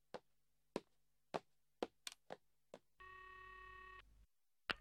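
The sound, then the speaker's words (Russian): A telephone tone after the other person hangs up on the call: several sharp clicks and taps, then one steady electronic tone lasting about a second, and a final click after a short silence. “Она бросила трубку, чтоб ее!”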